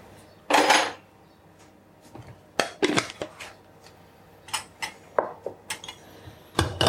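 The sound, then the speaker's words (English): Ground coffee being spooned into the holder of a stovetop coffee pot: many light metallic clinks, taps and brief scrapes of a spoon against metal, irregularly spaced and fairly quiet, with no talk. “And then I think it's probably about 4 teaspoons that go into the little coffee holder. There we go.”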